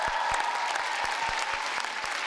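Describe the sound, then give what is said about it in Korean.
Audience applause for a contestant after her score is announced: dense, steady clapping from a crowd with sharp individual claps standing out, sustained evenly throughout with no talk. “박지민 양에게 다시 한번 큰 박수 부탁드립니다.”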